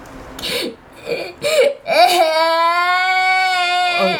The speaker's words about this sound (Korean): 한 아이가 끝내 울기 시작했다.